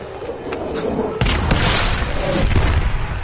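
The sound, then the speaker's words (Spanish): A bomb explodes in a dramatic film set in the First World War: a sudden heavy blast erupts after a short quiet stretch, then loud rumbling and crackling debris carry on to the end, with another sharp burst partway through. “Una bomba desplata al pintor.”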